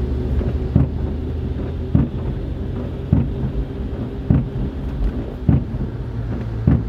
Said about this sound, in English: this new wiper I have doesn't clean everything, and when it hits the bottom, it makes this loud sound. I recorded some of it while I was driving